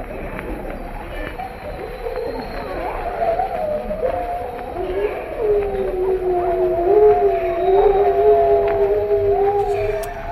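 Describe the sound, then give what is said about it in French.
Chilling howls of Siberian wolves, several long, wavering voices that overlap and drift in pitch, sustained and steady across the whole stretch and growing slightly louder toward the end, with no talking. “Voilà ces hurlements de loup de Sibérie glaçant.”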